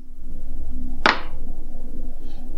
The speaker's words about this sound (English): Give me a glass so I can make the clinking sound on the microphone.